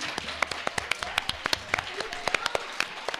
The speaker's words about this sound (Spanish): Un aplauso para ella.